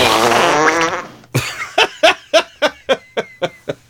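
A fart sound effect fired from a soundboard hotkey opens with a long sputtering blast, then runs into a rapid series of short, rhythmic pops. The effect is loud and plays alone, with no talk.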